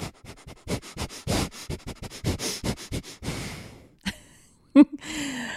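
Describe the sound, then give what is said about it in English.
Forceful nasal exhales from a breathing exercise: a rapid, even series of about a dozen short, sharp breath bursts, then a few slower, softer breaths and a brief louder puff, with no talking. “It's just a forceful exhale out through the nose, and you continue exhaling out through the nose. So it will sound a little something like this.”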